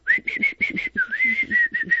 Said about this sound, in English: began to whistle